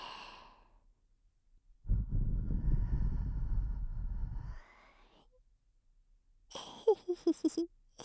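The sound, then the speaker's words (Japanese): A soft breath is blown close into the microphone as one low, rushing gust lasting a couple of seconds. Quiet whispery voice sounds come before and after it. “油断してたでしょ。ふうふうされるともっと気持ちよくなっちゃうね。”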